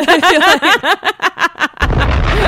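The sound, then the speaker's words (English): Cartoonish head-exploding sound effect: a rapid run of warbling, bouncing pulsed tones, then an abrupt loud noisy burst that carries on to the end. “Do we have any like fun parade sound effects?”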